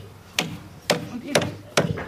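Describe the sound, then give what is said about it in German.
Four sharp hammer blows knocking out small sawn pieces, evenly spaced hard cracking hits with short ringing decays between them. “Jetzt werden hier die kleinen Stücke, die gesägt sind, rausgehauen, oder?”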